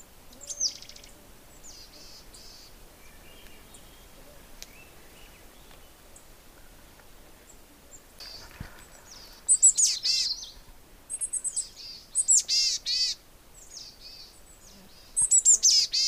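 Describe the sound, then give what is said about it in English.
Boreal chickadees give thin, high trilling calls in quick rapid-note bursts, mostly in the second half after a quieter stretch with only faint calls. The bursts are clear and fairly loud, with no talking. “Hear that little da-da-da-da-da-da, like a trill? That's also coming from the boreal chickadee. It's a sound that it makes that black caps don't.”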